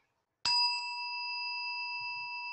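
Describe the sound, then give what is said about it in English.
A meditation tone is struck once after a moment of silence, giving a bright metallic onset that settles into a clear, steady, bell-like hum sustaining evenly until the end. “Allow the sound of the tone to bring you to presence.”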